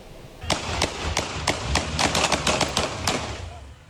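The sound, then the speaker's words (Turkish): Gunfire as police fire warning shots at a fleeing car on a street in Küçükçekmece, Istanbul: many sharp cracks in a rapid, irregular series over steady background noise. “Küçükçekmece sokakları silah sesleriyle yankılandı. Polis ekipleri dur ihtarına uymayan otomobile uyarı ateşi açtı.”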